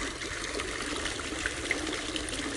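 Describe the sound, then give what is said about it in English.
Running water from a fountain in a front yard makes a steady, even splashing hiss that never stops, with small droplet-like spatters scattered through it. “The running water, it's just a fountain in my front yard, but that, the sound of water, that is such great meditation for me.”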